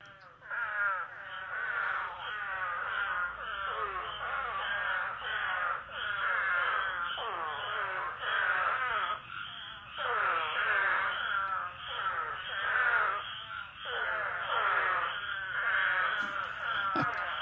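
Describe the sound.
Mating calls of a burrowing animal roused by flooding rains: many loud, moaning, groan-like calls, each sliding downward in pitch, repeating and overlapping in a continuous chorus throughout.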